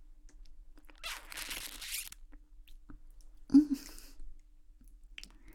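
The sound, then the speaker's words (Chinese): Opening the cap of a toner bottle: a soft plastic rustle, then after a pause a crisp click as the cap comes free, faint and with no talking. “这个化妆水呢，稍微有些特殊。打开盖子的话，”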